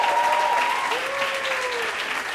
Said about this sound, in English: Yeah, clap it up for so yourselves.